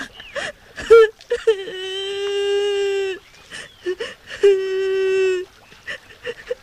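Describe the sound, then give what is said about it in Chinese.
A child cries in two long, sustained wailing sobs, with shorter whimpering cries and sniffles before, between and after them. “小朋友啊，怎么了？为什么在这儿哭啊？别哭了，别哭了。”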